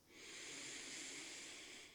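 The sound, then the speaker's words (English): A deep, full breath drawn in through the nose during a guided meditation: one faint, airy hiss lasting about two seconds, swelling gently and fading at the end, heard alone without talk. “let's take another cleansing breath here. So deep, full breath in through the nose.”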